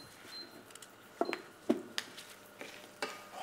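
Seeds roast in a pan while someone cooks, giving a few soft, sharp pops and clicks that come at irregular moments over a faint hiss. The sound stays quiet throughout.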